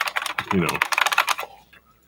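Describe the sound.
Typing on a Japanese buckling spring keyboard from around 1992. A fast run of loud, sharp key clacks thins out into a few sparser strokes toward the end.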